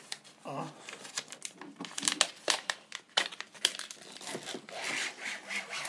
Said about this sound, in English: it's just a bit of tape actually, which I think I could probably pull off.